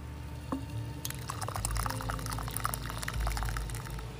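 Coffee is poured into a favorite mug: a steady, splashy stream of liquid begins about a second in and runs on evenly to the end, with no talking.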